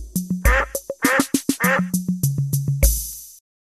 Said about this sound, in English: D is for duck. D, D, D. D is for duck.